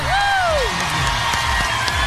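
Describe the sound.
An audience applauds and cheers for a musician guest on a show. The dense, loud clapping continues throughout, with high whoops and whistles rising over the crowd early on.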